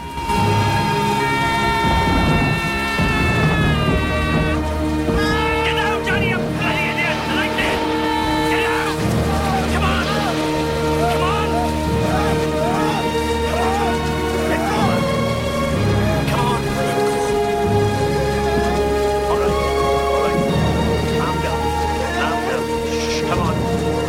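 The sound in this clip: Heavy rain in a lightning storm pours as a steady, unbroken hiss for the whole stretch, with loud sustained tonal music layered over it.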